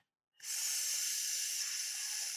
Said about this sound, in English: A quiet hiss from the universe could be what we need to reveal the secrets of our cosmic dawn.